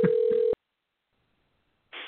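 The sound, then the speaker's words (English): A telephone being dialed for a call gives a short steady tone, then silence, then a brief hissing burst of line noise at the end. “I'm making a phone call”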